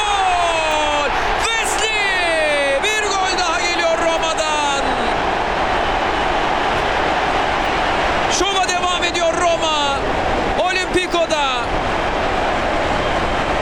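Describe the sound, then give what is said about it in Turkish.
Stadium crowd noise after a Roma goal against Fiorentina in a football match, with a constant roar. Rising and falling whoops and shouts cut through it in bursts near the start and again later, while voices carry on underneath. “İşte Dybala'nın alkışları.”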